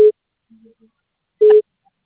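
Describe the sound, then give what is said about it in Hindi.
Telephone busy signal: a steady mid-pitched tone in two short, loud bursts separated by silence, with a few faint brief tones in the gap. “आपके द्वारा dial किया गया number अभी व्यस्त है या इस समय उपलब्ध नहीं है”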